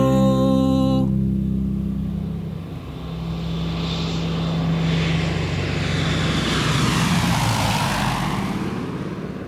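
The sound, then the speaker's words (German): A small propeller airplane in flight gives a steady engine drone with broad rushing noise, dipping briefly before swelling louder again. “Inzwischen fliegt Pitt die Autobahn ab und funkt Etienne im Tower seine Beobachtungen.”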